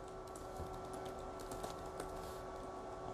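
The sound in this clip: Typing on a computer keyboard as a Bible verse is looked up during a church study session: many faint, quick key clicks in an uneven run, heard alone over a steady low background hum.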